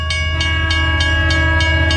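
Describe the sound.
Train at a railway station: a steady rumble and hum with a string of seven evenly spaced clicking bursts, loud and continuous with no voices.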